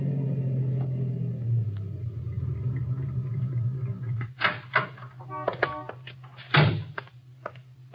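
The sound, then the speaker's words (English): A car engine drones in a steady, low rumble, then several sharp thunks and knocks break in over the hum in the second half. “I drove there early the next morning.”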